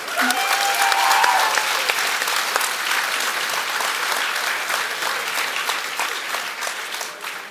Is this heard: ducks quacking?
no